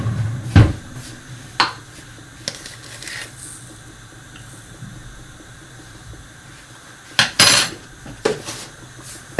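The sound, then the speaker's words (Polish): Spoon and dish clatter as a flat teaspoon of salt is added during cooking: several sharp metallic clinks, spaced irregularly with quieter gaps between them, and no talk. “Teraz dodam płaską łyżeczkę soli.”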